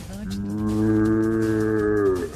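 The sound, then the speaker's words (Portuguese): A berrante cattle horn is blown in one long, loud, sustained note with a rich, steady bellowing tone much like a lowing ox. It swells slightly and then cuts off, with no voices over it. “Olha o berrante. Foi mais forte que a quinta série, Cleide. Quinta série. Isso parece um boi berrando, isso sim.”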